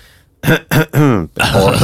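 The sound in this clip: A man clears his throat in a few short, gruff, rasping bursts during a conversation about football.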